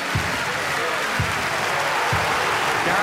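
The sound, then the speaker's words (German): Applause for a winner fills the space as a dense, even wash of clapping at constant loudness, with some soft low thumps recurring beneath it. “Jubel für den Sieger. Applaus! Applaus!”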